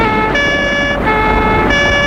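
Loud police siren during a car chase, switching between steady high and low tones in a repeating pattern over a continuous roar.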